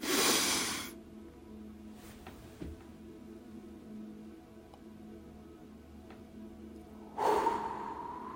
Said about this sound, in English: We're gonna take our breath.